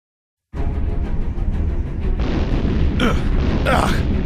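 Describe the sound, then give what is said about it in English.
Missile strikes exploding in a sci-fi audio drama, Noxy V7 missiles fired from a moon's surface: a loud, sudden onset of heavy rumbling that continues unbroken, with a couple of sharper, brighter bursts cracking through near the end. “What's hitting us, Pixel? Noxy V7 missiles from the moon's surface. There are too many missiles!”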